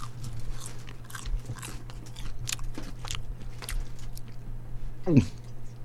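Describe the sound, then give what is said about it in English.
Crisp bites and chewing as someone tastes French fries, with a run of many crunches over a steady low hum. “Where was this potato grown? He's tasting French fries.”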